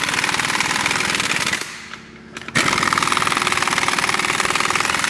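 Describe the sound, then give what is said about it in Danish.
A power tool runs wheel bolts in at a workshop with a loud, rapid rattling hammer. It stops for about a second partway through, then resumes at full force and keeps going to the end. “Så jeg prøver at køre dem lige løst ind først her. Det larmer lige lidt. Det lyder, som om vi er på et værksted.”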